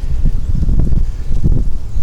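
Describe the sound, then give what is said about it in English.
Wind gusts buffet a microphone outdoors, producing a steady low rumble with uneven surges that fills the whole two seconds, with no voices. “And the wind comes up at the most annoying time.”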